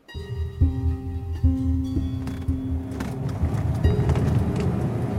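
A car driving, its engine giving a steady tonal drone that shifts in a few steps over low rumbling road noise, which grows rougher and broader toward the end.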